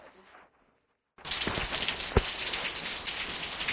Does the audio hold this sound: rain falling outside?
yes